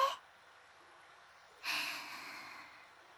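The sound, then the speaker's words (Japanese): A deep in-breath taken at the start of a guided breathing exercise: one airy rush that begins abruptly and slowly tapers off, after a brief faint puff of breath at the outset. “まずは吸って。”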